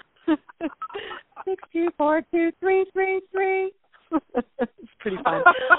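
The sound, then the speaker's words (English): Touchtone phone keypad tones play Mary Had a Little Lamb as a string of short, steady dual-tone beeps of changing pitch, with people talking around the melody. “Now, in the old days, if you had a touchtone phone, yes, that does play Mary Had a Little Lamb.”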